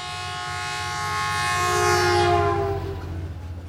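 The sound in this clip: Train horn sounding over a moving train, a sustained, harmonic blast that swells to its loudest near the middle and then eases off above a rhythmic low rumble of the wheels.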